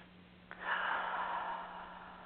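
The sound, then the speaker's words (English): A single deep breath drawn in during a guided relaxation. It is a soft, airy rush that swells and then slowly fades, heard alone over a low steady hum. “Some nice breaths in.”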